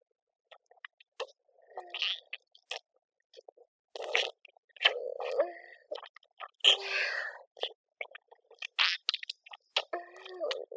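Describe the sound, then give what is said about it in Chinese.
Someone biting and chewing an ice pop, with crisp crunches and wet chewing sounds in many irregular clusters separated by short silences, faint and up close with no talking. “你不信，我就吃给你听呀。”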